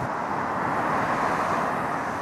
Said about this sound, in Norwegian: Ved en av Oslos mest trafikkerte veier, Ring 3, møter jeg Rolf Hagmann.